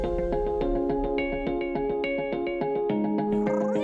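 A robotic companion pet cat gives an electronic meow: a harmonic, trilling tone pulsing in many rapid beats, ending in a brief upward sweep.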